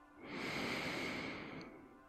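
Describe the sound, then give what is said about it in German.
A deep breath taken through the nose during a guided breathing exercise, heard as one long, soft rush of air that swells and then eases over about two seconds. No voices are heard. “Noch einmal tief durch deine Nase einatmen”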